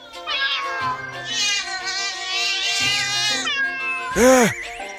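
A cat meows loudly in long, drawn-out, wavering cries, followed by one shorter, sharp meow that rises and then falls in pitch.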